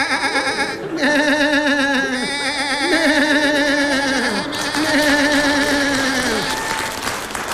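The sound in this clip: A human voice imitates a lamb bleating, producing a few sustained, quavering baa sounds with a strong wobbling vibrato, loud and nasal, running almost continuously.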